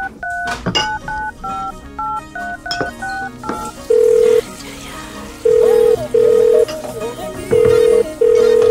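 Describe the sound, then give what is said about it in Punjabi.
A phone number is dialed as a quick run of short keypad touch-tones, then several longer, evenly spaced steady beeps sound over a dense background. “ਰੁਕ ਲਾਉਣਾ phone ਉਹਨੂੰ।”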